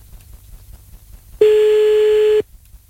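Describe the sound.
Ringback tone of a telephone call being dialed back: one steady, even-pitched tone lasting about a second, standing out clearly above a low background hum.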